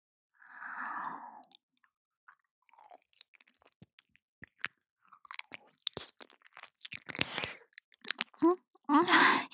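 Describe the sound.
Wet mouth sounds of nibbling and eating an ear: a soft breathy sound, then many small clicks, smacks and crunchy nibbles that grow denser and louder toward the end.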